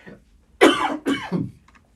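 A few quick, rough coughs come from someone with dust from CNC-machined plastic panels caught in the throat. The bursts run in close succession and fade out at the end.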